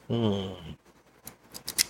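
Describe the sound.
Cigar cutter making a V-cut on a 60 ring gauge cigar: after a voice speaks, a few short, sharp snipping clicks follow, the last two close together.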